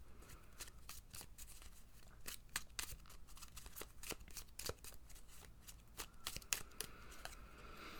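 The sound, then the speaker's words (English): Sovereign Oracle cards are shuffled and pulled in a steady run of quick, crisp flicks and riffles. The sound is faint and continues without pause across the whole stretch. “And then let's see, I'll pull a couple of Oracle cards. This is the Sovereign Oracle that I'm using now.”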